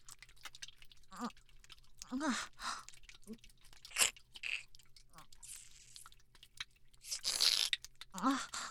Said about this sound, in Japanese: コリコリ、じゃあ噛んであげます。